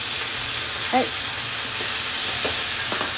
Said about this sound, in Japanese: もう跳ねるね油本当にこのね油が跳ねるぐらいの